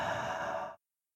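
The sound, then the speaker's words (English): A single deep exhale during a guided breathing exercise: a breathy sigh lasting under a second that cuts off abruptly into silence. “take a deep breath in through your nose and exhale.”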